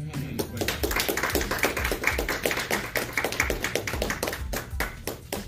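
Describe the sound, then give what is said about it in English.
An audience gives another round of applause for a speaker after a talk: many quick, crisp hand claps merge into a continuous, even patter that stays fairly steady throughout. “Can we give my brother another round of applause?”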